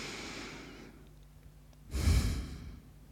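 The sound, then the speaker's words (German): A deep breath is drawn: a soft inhale is followed after a short pause by a louder, sighing exhale, with no talking. “schließ doch einmal kurz die Augen und atme ganz tief durch.”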